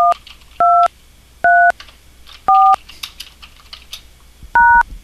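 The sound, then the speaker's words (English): Telephone keypad tones as keys are pressed on a voicemail system: five clear, loud dual-pitched beeps at uneven intervals, with faint clicks between them and no talk. “To leave a message for the subscriber, press the pound key. To log on as another subscriber, press the star key.”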